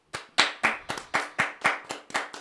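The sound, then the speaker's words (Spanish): Hands clapping in a steady, even rhythm: a series of sharp, evenly spaced claps at a moderate pace, with no voices over them. “Ahorita que aplausos a su ex, que es gracias a ella que te conozco.”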